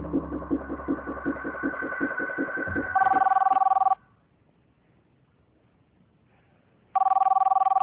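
A telephone rings in two loud, trilling bursts separated by a few seconds of silence. Before the first ring, a low, rhythmic pulsing rumble runs underneath.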